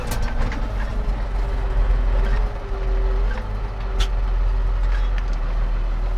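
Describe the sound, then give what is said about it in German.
Steady engine rumble of a truck driving along a field to a combine harvester to collect threshed maize, a continuous low drone with no talk. “Wir fahren jetzt zum Feld, zu Erik, zum Drescher.”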